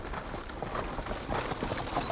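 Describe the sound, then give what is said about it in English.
Horses galloping, their hooves making a dense, continuous clatter that stays at a steady loudness throughout, with no voices. “I worried as we galloped along.”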